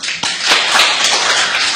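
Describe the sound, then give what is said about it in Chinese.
Audience applause at an art troupe gathering, a brief, dense patter of many clapping hands at a steady, fairly loud level with no talk over it. “大家再给予掌声。”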